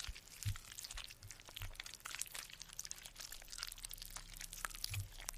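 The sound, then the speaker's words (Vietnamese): Creatures chewing food with wet smacking, heard along a pitch-dark dirt road: many faint, irregular crunchy clicks, crackles and smacks, with a few soft low thumps mixed in. “Đây là tiếng chúng nó đang nhai thức ăn đấy.”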